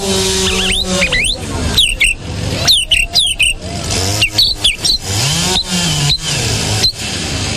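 A person imitates a bird's mating song, the ramage, with rapid high chirps, whistled slides and short trills in quick bursts, separated by brief gaps.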